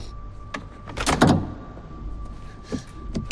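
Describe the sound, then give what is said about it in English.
A car hood being opened: a few dull clunks and a heavier, longer thump in the middle, over low background hum. “The hood opens. He closes the hood down, then looks up.”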